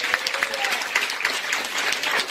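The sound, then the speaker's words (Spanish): Applause rises from an audience during praise in a church service. Many hands clap in a steady, fairly even stream of sharp strikes, with a faint voice underneath. “Por ese aplauso y alabanza.”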